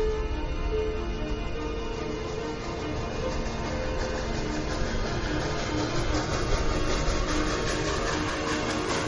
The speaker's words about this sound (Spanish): Entra en una estación del metropolitano. Espera con gesto ausente en el andén.